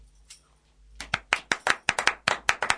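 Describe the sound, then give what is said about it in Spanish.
Applause from outside: many sharp hand claps in a quick, uneven rhythm. A faint low murmur comes before them. “Ahí vienen los aplausos exteriores.”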